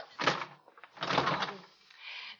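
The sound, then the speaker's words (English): A door is shut and locked, heard as three distinct knocks and rattles. A short bump comes first, then a longer, louder scraping rattle, and finally a softer closing clunk. “The door's locked. I can't get out.”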